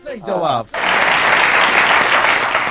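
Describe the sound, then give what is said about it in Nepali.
A voice speaks briefly, then loud, dense applause breaks out after a correct answer in a quiz and carries on steadily to the end. “सही जवाब, ताली पड्किसकेको छ”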